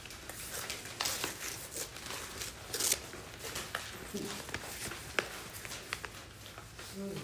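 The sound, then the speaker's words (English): A sheet of paper being folded and torn: continuous crinkling and rustling with a few sharper, rasping bursts, fairly faint throughout. “Fold the sheet of paper again in half. And tear off the upper left-hand corner.”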